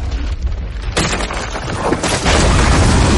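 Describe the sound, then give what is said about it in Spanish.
A dragon breathing fire as it crosses the sky in a fantasy battle, heard as a loud, continuous roaring blast of rushing flame and rumble, with a sharp surge near one second and another swelling burst later, no voices. “Sobre los hermanos, Drogon cruza el cielo escupiendo fuego.”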